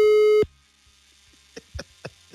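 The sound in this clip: A telephone line tone sounds as a call is placed: one steady, loud electronic beep held briefly, then near silence broken by a few faint, short clicks and blips.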